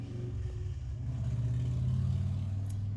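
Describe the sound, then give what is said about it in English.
A passing motorcycle makes a low, continuous engine rumble that swells slightly and holds steady, with no voices. “there goes a motorcycle, which is also getting me very excited.”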